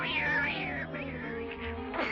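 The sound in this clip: Cat with its fur standing on end gives a drawn-out, wavering yowl, moderately loud, with the pitch sliding up and down and a fresh rise near the end.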